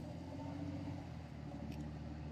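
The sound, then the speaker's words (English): A FedEx delivery truck driving past gives a faint, steady low engine rumble that holds at an even level throughout, with no voices heard. “will wait for the truck to go by, Mr. FedEx.”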